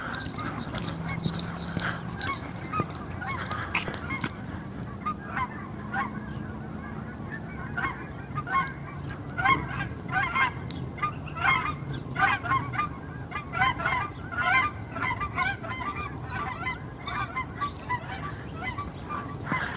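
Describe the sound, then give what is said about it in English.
Four or five big skeins of geese honk as they sort themselves out overhead: many overlapping nasal honks in a busy, chattering rhythm, continuous and moderately loud for the whole stretch. “It's 4 or 5 big skeins of geese sorting themselves out over there.”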